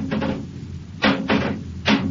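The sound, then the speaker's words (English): A metal bar knocks against a giant worm clinging to a spaceship wall, giving a few dull, spaced thuds over a steady low hum. “Take this bar and knock it loose, Happy.”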